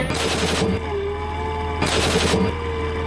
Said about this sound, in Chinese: 训练中，我们用内膛枪代替主炮激发，既能完成模拟主炮射击时的场景和操作流程